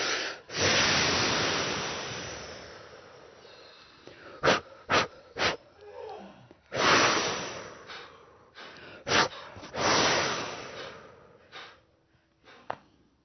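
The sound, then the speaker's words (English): Deep breaths in and out during a guided breathing exercise: several long, airy inhale and exhale passages, each swelling and fading, separated by quieter gaps with a few short clicks and catches of breath. “Now with us, get a nice deep breath and an exhale, and we're going to let it go out through the vortex and be done.”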